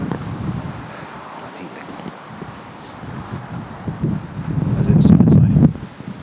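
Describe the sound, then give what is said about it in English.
Strong wind blowing outdoors on a tree-lined path, rumbling gusts buffeting the microphone with some rustling, swelling louder toward the end before easing off. “As soon as I stick you guys on pause, the wind drops. And literally as soon as I've got something to say. Flaming hurricane coming through again.”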